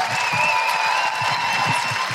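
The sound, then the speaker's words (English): Audience applause at a comedy show, greeting performers with a sustained wash of clapping from many people. A few faint steady tones ring above it throughout. “Can I have a huge round of applause for Jamila and Laura? And the incredible Jen Brister.”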